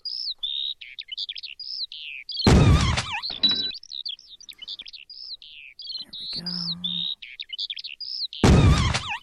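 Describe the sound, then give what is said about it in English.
Many quick, high chirps of birds in a video game's shooting bonus round repeat steadily throughout, broken by a few loud, noisy bursts. “Bonus round. Alright, so there are birds. You shoot them when they're in the center of the screen”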